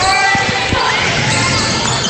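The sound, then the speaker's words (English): A basketball is dribbled up the court during a game. A few quick, low thumps sound near the start beneath a loud, steady wash of crowd noise. “So dribble it up the court.”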